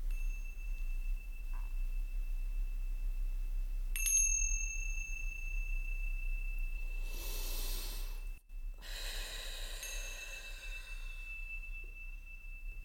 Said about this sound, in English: when you hear the sounds of the chimes coming back,